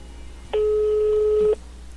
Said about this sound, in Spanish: vamos a enlazar la llamada, vamos a ver quién nos contesta en la otra línea. Ahí está llamando.